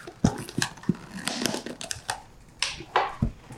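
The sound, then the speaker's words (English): Someone bites open a heavily taped cardboard box: crinkling tape, sharp clicks and short tearing rips arrive in uneven bursts. “Now he's opening up a box with his teeth.”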